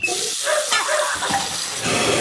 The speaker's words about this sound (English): Ugh, no, not the sink. Not now. Plumbing problems never seem to happen at a convenient time.